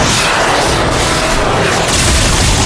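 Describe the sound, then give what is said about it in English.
Explosive, roaring blasts as half a dozen darts of mage fire plunge into a magic shield. A loud, dense rumble fills the whole clip without letup, and no voices are heard. “A moment later, half a dozen darts of mage fire plunged into his shield, but the Vergmeister”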